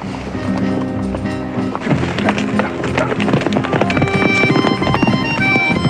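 Galloping horses as a sheriff and deputy ride back: fast, loud, percussive clip-clop of hooves runs continuously over orchestral music throughout.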